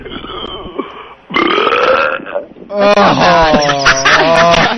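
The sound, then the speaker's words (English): Big, loud burps rumble out in a few long, deep, croaking stretches, one after another with short breaks between them. “Just give us a big burp.”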